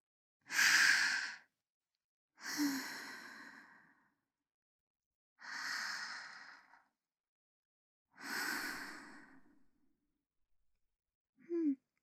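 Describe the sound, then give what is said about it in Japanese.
Deep, slow breathing in and out, with four long, airy breaths evenly spaced and separated by silence, then a brief fifth breath at the end, soft and unhurried with no talking. “息を吸って、まったりと体の力を抜いて、 ほら、深呼吸しよう。”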